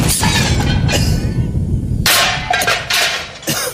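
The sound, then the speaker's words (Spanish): A grenade explosion effect in a comedy sketch, heard as a few loud, sharp bangs with a shattering, crackling quality. The middle burst is the fullest and fades out gradually. “¡Granada! ¡Al suelo, Presi!”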